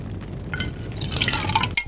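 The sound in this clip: Bourbon pours from a bottle into glasses as a soft, bubbling trickle of liquid with a few brighter glassy drips, heard alone and fairly quietly.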